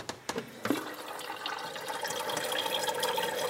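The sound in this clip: Water poured into a kettle: a few faint clicks and knocks at the start, then a steady hissing rush of running water that slowly fills in and grows a little louder. The sound is soft overall, with no talk.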